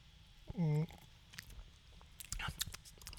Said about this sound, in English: Enough eating and drinking noises.